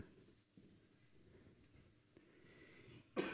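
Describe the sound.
Handwriting with a pen: quiet, scratchy strokes that run on in short bursts. A louder scrape comes near the end.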